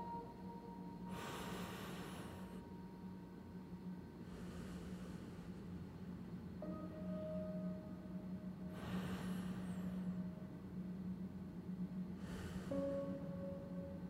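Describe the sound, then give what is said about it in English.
Two slow, deep breaths, heard as four soft, airy bursts of breathing in and out, spread evenly over a quiet, steady hum. “Let's begin with two deep breaths.”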